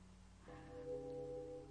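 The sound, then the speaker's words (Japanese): A train departure bell rings, a faint sustained steady tone with a rich ringing timbre that starts after a short quiet moment and holds to the end. “発車を告げるベルが鳴り響く。”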